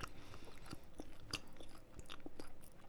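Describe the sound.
Chewing food while eating: quiet, uneven crunches and bites over faint background noise, with no talking.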